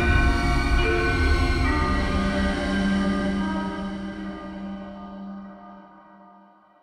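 A train at the railway station in Bad Harzburg gives a loud, broad rumbling roar with a sustained horn-like tone partway through, then gradually fades toward the end.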